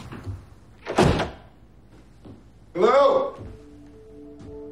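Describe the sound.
A house door opening as someone enters: a sharp thump, then a longer, wavering creak, with quieter knocks and low hum afterward.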